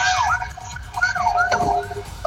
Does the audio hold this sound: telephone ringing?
no